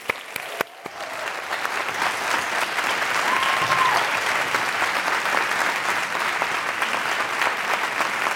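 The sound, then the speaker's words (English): Audience applause at a Commonwealth Club event welcoming author Deepak Chopra to the stage, a dense steady clapping that swells after a few sharp claps and holds for about eight seconds. “So please join me in giving a warm welcome to Dr. Deepak Chopra.”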